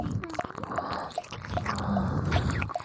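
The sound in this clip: Thick saliva dripping onto the floor: small, wet drips falling at an even, regular pace, many in a row, faint against a steady background hiss.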